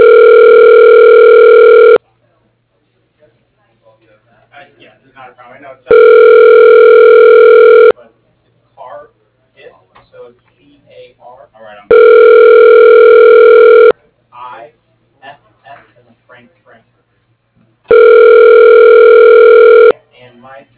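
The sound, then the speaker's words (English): Telephone ringing tone while a call is forwarded: four steady, evenly spaced buzzing tones, each about two seconds long, with faint speech in the quiet gaps between them. “Your call is now being forwarded. Please hold.”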